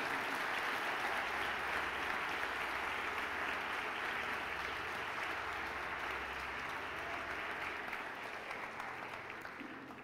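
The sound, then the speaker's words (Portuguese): A church audience applauds as a dense, steady wash of many hands clapping. It holds evenly for the whole stretch and fades slightly near the end. “A igreja pode aplaudir ao Senhor Jesus.”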